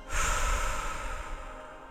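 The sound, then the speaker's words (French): A single deep breath drawn in through the nose and let out during a guided meditation, a soft, airy rush heard alone with no talk. “je vais t'inviter à fermer les yeux et prendre une profonde inspiration par le nez et expirer”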